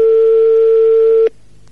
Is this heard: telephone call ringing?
yes

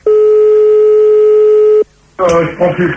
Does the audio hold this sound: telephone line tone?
yes

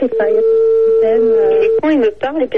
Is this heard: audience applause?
no

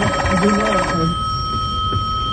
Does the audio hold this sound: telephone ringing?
yes

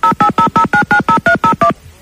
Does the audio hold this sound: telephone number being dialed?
yes

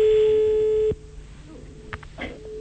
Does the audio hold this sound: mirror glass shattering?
no

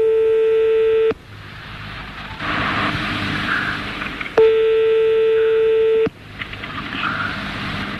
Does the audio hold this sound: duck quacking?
no

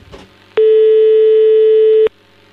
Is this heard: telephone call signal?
yes

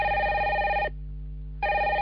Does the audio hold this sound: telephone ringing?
yes

